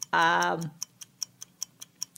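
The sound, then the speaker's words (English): A game timer ticks in a quick, even rhythm, with faint, crisp clicks repeating at a steady pace. “Okay, so the timer's starting right now.”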